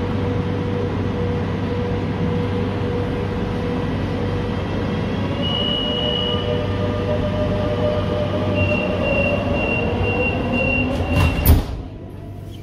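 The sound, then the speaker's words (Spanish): A passenger train running on rails: a steady, loud rumble with thin, high wheel squeals drifting above it, and a short, louder clatter near the end. “Por favor, permanezcan en sus asientos hasta que el tren se pare por completo y no olviden sus objetos personales.”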